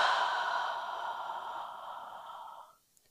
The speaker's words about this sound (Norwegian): Da kan vi starte med å puste bare sånn helt vanlig. Inn og ut.